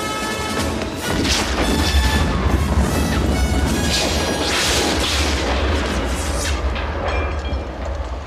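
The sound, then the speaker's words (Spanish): An airplane exploding in fire, a dense, loud, continuous roar of blast and flame that stays powerful and rumbling for the whole stretch without pause. “Tira de Marion y saltan lejos mientras el fuego llega al avión que estalla.”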